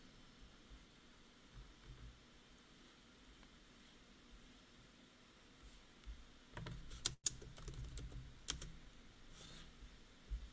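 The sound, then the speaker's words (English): Typing on a computer keyboard: a few faint scattered clicks at first, then a denser run of keystrokes in the second half with one sharper burst, over a low steady hiss and no talking. “Listen to me type.”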